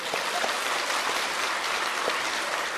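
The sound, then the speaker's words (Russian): An audience breaks into steady, dense applause that fills the whole stretch at an even, moderate level. “Давайте ей похлопаем.”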